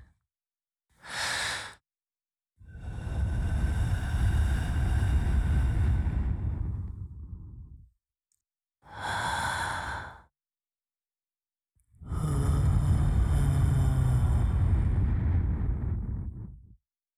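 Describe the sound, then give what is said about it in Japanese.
Breath blown softly into the ear, heard as four airy, hissing gusts: two short puffs alternating with two longer, steady blows of several seconds each, separated by silence. “息吹きかけるから動かないでね。”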